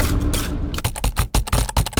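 Typing on a computer keyboard at a desk: keys clack in a quick, irregular run of sharp taps. A denser rustling scrape comes before them.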